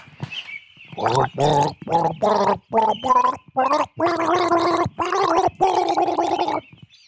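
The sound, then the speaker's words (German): Someone gargles a tune with flower water in a string of bubbly, pitched gurgling bursts, some short and some held longer, separated by brief pauses, with no talk over it. “Hier kommt unser Virtuose mit dem Blumenwasser und er gurgelt für Sie einen Lamour-Hatscha.”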